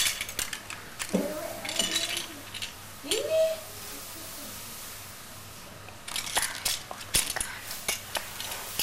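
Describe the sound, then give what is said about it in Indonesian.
Forks and spoons clink together in light, bright metallic taps that come in scattered bursts at the start and toward the end, with people talking in between. “Garpu sama garpu sendok. Garpu sama garpu sendok sama sendok.”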